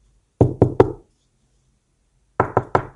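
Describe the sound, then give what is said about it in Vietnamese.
Hard banging on the door of a coffin shop: two quick bursts of three loud, sharp knocks each, separated by a long silent pause. “Vấn Dượng vỗ mạnh lên cửa tiệm quan tài”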